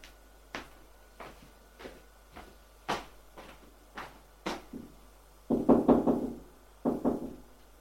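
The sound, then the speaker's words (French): Knocking on a son's bedroom door: a run of light, evenly spaced knocks, then a few louder, heavier raps bunched near the end, with quiet gaps between them. “Il va frapper à la chambre de son fils.”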